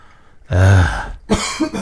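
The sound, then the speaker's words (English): Someone coughs after inhaling their own saliva: a loud, rough throat-clearing cough, then a shorter burst of a few more raspy coughs. “Sorry, I just inhaled my own saliva.”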